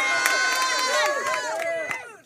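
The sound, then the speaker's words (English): An audience cheers and whoops with high, excited voices sliding up and down over scattered claps, loud and sustained before tapering off at the end. “I'm actually not offended he got a bigger applause than us. I really don't care. I did not. You guys got a great applause.”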